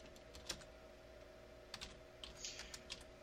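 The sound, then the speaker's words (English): Fingers tap a computer keyboard in a few faint, scattered keystrokes, with clicks spaced unevenly over a low steady hum. “I'm going to type that in there real quick”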